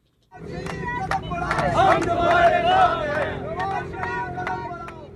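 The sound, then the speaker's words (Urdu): Loud crowd of Muslim League supporters gathering in Lahore's old city, with many voices shouting and calling over a dense, continuous hubbub that starts abruptly after a brief silence. “اس وقت اندرون شہر میں ہوں اور میرے علم میں ہے کہ ارد گرد بے شمار دنیا اکٹھی ہو رہی ہے جو کہ ایئرپورٹ جانے کے لیے بیتاب ہے۔”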